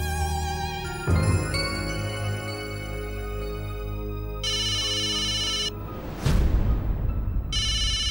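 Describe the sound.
A telephone rings during an outgoing call, a steady electronic ringtone of sustained bright tones that repeats in loud bursts with a short sweeping tone between them, with no voices.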